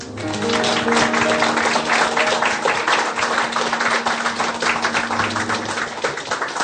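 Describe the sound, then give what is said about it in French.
Audience applause welcoming two speakers at an evening talk on defense satellites: brisk, continuous clapping from a crowd that starts almost at once and stays at a steady, full level throughout. “Raison de plus pour accueillir avec encore plus d'applaudissements nos deux intervenants.”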